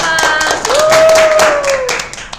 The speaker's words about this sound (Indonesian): Kita harus kasih aplaus kasih. Aplaus. Ayo aplaus teman-teman.